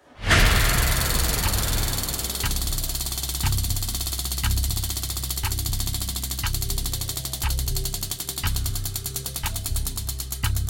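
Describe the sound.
A game show consequence wheel being spun opens with a quick swoosh, then settles into a steady run of sharp ticks, roughly one per second, over a continuous low rumbling drone.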